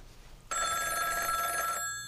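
Telephone bell ringing at the opening of a song: one loud, sustained metallic ring of bright overlapping tones that lasts just over a second and then cuts off abruptly. No voices.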